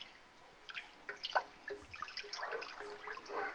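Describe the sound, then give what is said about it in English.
Chili with tomato paste being stirred in a pot with a spoon: soft, wet scraping and squelching with irregular little clicks, faint and continuous, with no talking. “Stirring, stirring, stirring. Keep that chili stirred.”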